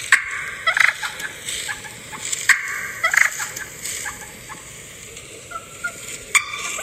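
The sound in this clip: Wild turkeys cluck and purr in a few short, raspy bursts that repeat at uneven intervals, with softer rolling purrs between the louder clucks.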